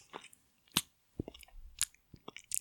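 Wet, smacking chewing with crunchy bites comes in irregular bursts of clicks and snaps, separated by brief quiet gaps, with no talking.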